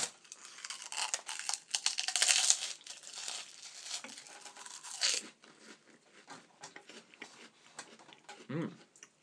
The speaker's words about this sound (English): I'm going to have a prawn cracker now.